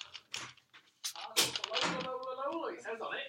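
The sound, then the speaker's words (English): Someone at the door: a few dull thuds, like knocks, sound in quick succession, followed by a person speaking. “Someone's at the door. Oh, someone's at the door.”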